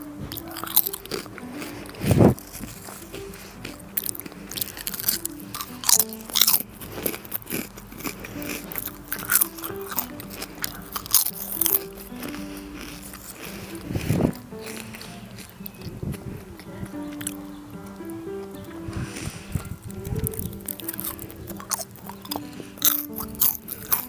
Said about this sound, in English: We're gonna make an ASMR minute, me eating chips, and you need to listen to it, okay?